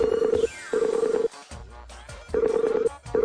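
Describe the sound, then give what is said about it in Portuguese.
A telephone call being placed, with repeated steady, mid-pitched electronic tones in short bursts, broken by noisier gaps. “Falando em dinheiro, peraí que eu vou ligar pro senhor K.”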